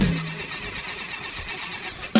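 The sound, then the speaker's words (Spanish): A car engine cranks but fails to start, giving a steady grinding churn that runs for about two seconds with a brief thump at the very end. “¿Cómo pretendías que todo siguiera bien si llegaste al coche y no quiso encender?”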